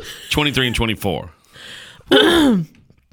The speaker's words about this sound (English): Excuse me. I cleared my throat.